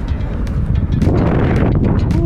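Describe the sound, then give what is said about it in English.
Strong wind blows outdoors, a continuous rushing roar with buffeting gusts battering the microphone throughout. “Y'all hear this wind?”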